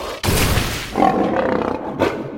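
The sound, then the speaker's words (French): A lion roaring: a loud, rough, rumbling roar with deep low grunting underneath, which swells and fades across about two seconds and breaks into a fresh burst near the end. “Et aussitôt, un lion apparut devant le chat.”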